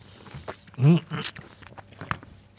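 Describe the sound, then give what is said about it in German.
A crisp bite into a raw Amalfi lemon, followed by a few soft chewing crunches and a brief voiced murmur, all fairly faint. “Die Amalfi-Zitrone, also die Königin der Zitronen. Und die kann man auch mal so pur essen.”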